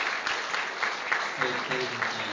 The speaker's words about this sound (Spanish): Bien, un aplauso también.